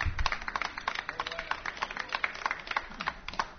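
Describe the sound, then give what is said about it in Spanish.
Scattered applause from a small audience at a talk, with many sharp, uneven hand claps at a moderate, fairly steady level for a few seconds. “Ese aplauso que se oiga. Sí, señor.”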